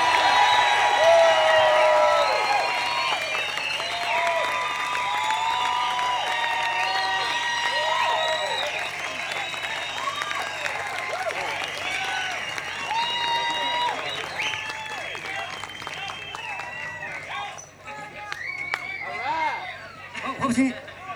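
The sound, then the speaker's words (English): A concert audience applauds and cheers for a band in a long, dense wash of clapping with whoops and some laughter, fading slightly toward the end while people chatter and a voice speaks over the crowd. “One more. You gotta make a lot of noise so Del can hear you.”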